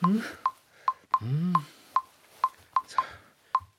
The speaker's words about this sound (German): Es tutet.